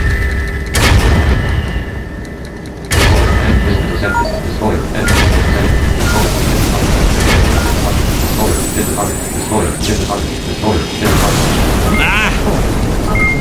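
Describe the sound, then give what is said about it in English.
Loud booming blasts and rumbling explosions as the most powerful missile is fired in a sky racing video game, dense and sustained throughout with a voice talking at times. “Weapon Destroyer 5, the most powerful missile.”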